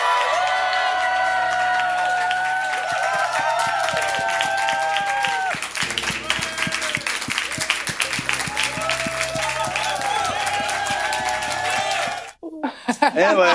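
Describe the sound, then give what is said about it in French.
A crowd at a launch evening cheers a hurrah with sustained clapping, whoops and shouted voices. The loud, busy cheering rolls on for about twelve seconds and then cuts off abruptly into a brief different sound. “Ça, c'est juste un hourra pour des bons souvenirs”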